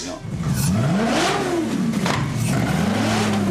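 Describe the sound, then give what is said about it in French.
A Maserati GranTurismo S 4.7-litre V8 of 470 hp, fitted to a four-wheeled tilting motorcycle, revs loudly. Its engine note climbs and drops several times in a rich, throaty growl. “On a un moteur Maserati, quoi, sur une moto. Enfin, celle-là, je voulais avoir le son du V8, en tout cas, et un moteur italien.”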